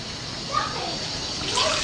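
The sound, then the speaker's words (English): Water runs steadily as a young girl washes her hands, an even hiss throughout with voices talking over it. “She wants to wash the hand and eat again.”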